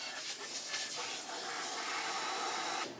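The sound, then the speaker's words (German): Compressed air blows white plaster dust off a toilet bowl, inside and out, during bathroom renovation work, a steady broad hiss lasting about three seconds that cuts off sharply at the end. “Daher fährt Yalak jetzt eine Staubschutzwand herunter und pustet mit Druckluft das ganze Toilettenbecken innen und außen gründlich ab.”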